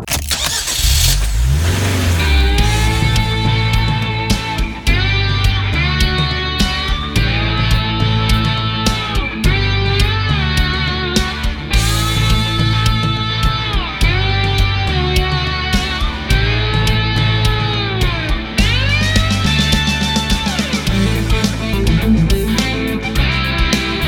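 A car being driven: a loud, continuous engine and road drone with strong low harmonics fills the whole stretch, with a rising rumble at the very start.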